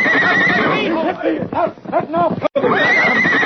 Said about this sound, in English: Paint horse, that horse.